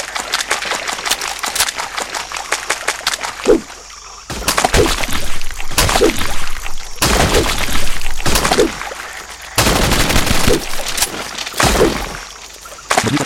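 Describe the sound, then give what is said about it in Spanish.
Rapid gunfire in a video game as a powerful weapon mows down many enemies at once, several long crackling bursts of quick shots separated by short pauses. “vais a el arma buena y vais a ver lo que es matar 20 tíos de una vez.”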